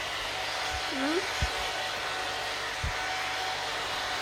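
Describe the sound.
A hair dryer blows in a steady, fairly faint whoosh of airflow throughout, with a few soft low thumps along the way.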